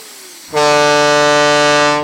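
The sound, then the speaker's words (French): A truck horn honks in one loud, steady blast of about a second and a half, a buzzing, harmonically rich tone that starts abruptly and holds until it cuts off. “Si même les camions s'y mettent, adieu ma sieste. Un klaxon pareil, ça vous vrille les tympans.”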